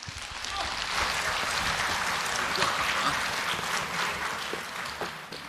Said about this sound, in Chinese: 谢谢大家， 谢谢各位的掌声。